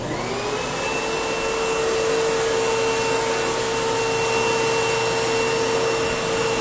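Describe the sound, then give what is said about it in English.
An Intervac H120 vacuum cleaner runs with its hose attached, giving a steady, loud, even roar with a constant whine and no pauses. “the Intervac H120. All right, hose is in. Here we go. The Intervac H120.”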